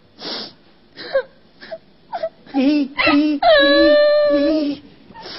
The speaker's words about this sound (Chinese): 你别哭，你别哭，你别哭啊！哎呀呀，你这时候哭有啥用啊？